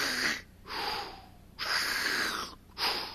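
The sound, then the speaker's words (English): A voice imitates an ICU ventilator machine breathing for a patient, making harsh, hissy rasping breaths in a slow mechanical rhythm. A few long airy strokes are separated by short pauses, with no talk. “breathing, helping him to breathe. No, breathing for him. I'm not imitating Darth Vader here, okay?”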